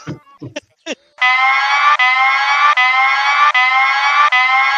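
A loud alert siren sound effect plays in a studio, beginning after a few short sounds. It is a steady, buzzy harmonic tone that repeats in several even pulses separated by tiny gaps.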